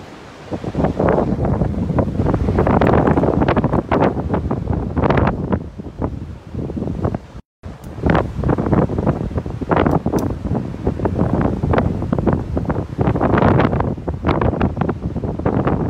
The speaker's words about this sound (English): That's the wind is blowing through the palm trees, and the surf is huge.